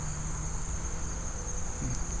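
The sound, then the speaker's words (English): Insects buzz outdoors beside a berry patch, a steady, faint, high-pitched drone or trill that holds level throughout with no voices. “I think I'm getting buzzed by bugs.”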